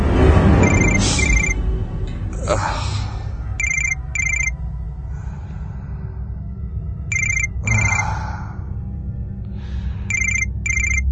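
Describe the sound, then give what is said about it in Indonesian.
A mobile phone's ringtone repeats as short bursts of bright electronic chirping tones, set apart by pauses. The ringing is fairly loud over a steady low background noise. “Teleponku berdering lagi.”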